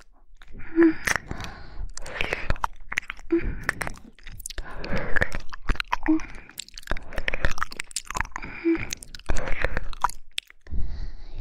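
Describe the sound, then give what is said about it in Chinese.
Chewing and eating cream: wet mouth sounds and soft crunchy bites repeat many times in a steady rhythm, with light breathy gasps between them. “宝贝奶油太好吃了呀。”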